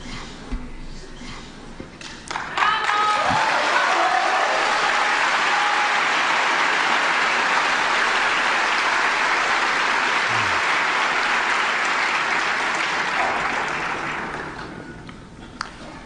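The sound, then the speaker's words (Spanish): An audience applauding at a poetry reading, dense clapping that swells in after about two seconds, holds as a steady, loud wash, then tapers off toward the end. “Estos son aplausos.”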